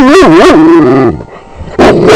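A dog gives loud, wavering yowls and whining barks whose pitch swoops up and down, then quiets briefly before a second loud burst of barking near the end.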